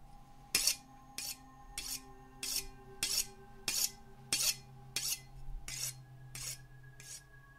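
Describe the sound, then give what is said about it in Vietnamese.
A blade is drawn repeatedly over a sharpening stone outside by a well. A steady series of evenly spaced rasping strokes plays over a faint constant hum, with no voices. “Rồi tiếp theo, âm thanh mài dao lạnh lẽo từ ngoài giếng truyền vào.”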